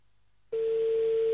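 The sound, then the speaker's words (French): A telephone line tone as a call is placed to a priest in Anderlecht: after a brief near-silence, a single steady pure tone switches on abruptly and holds unbroken to the end. “Allez, on appelle un petit dernier, on va à Anderlecht maintenant.”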